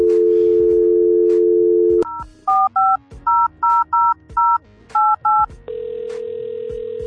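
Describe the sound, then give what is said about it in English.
A telephone number is dialed. A steady dial tone plays first, then a quick run of many clipped keypad beeps, and finally a single long, even tone. “let's dial that number.”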